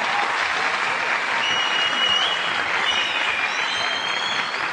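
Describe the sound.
Audience applause during a live performance, a thick steady wash of clapping that continues without a break.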